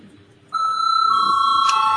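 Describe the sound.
A chairman's bell rings to call a parliamentary vote, starting abruptly after a quiet moment with a steady, loud, bright electronic tone that holds to the end.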